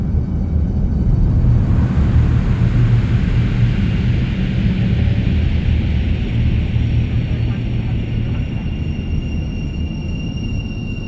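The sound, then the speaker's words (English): A spacecraft taking off: a loud, steady, deep roaring rumble that fills the whole clip, with a thin, high whine held above it and no talk. “Ladies and gentlemen, we've been granted clearance for an immediate takeoff.”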